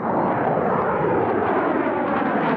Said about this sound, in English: That's a B-2 bomber flying over the U.S. Air Force's Plant 42 in Palmdale, California.